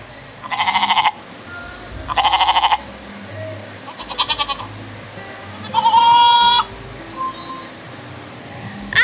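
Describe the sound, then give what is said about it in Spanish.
Goat bleats: several loud, wavering bleats with short gaps between them, each with a quavering, buzzy tone, standing out over a quiet background with no voices. “Y entonces el chivo dijo,”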